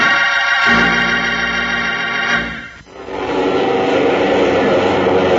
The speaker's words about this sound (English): Hear that? That's a United Airlines DC-7 mainliner ready for takeoff.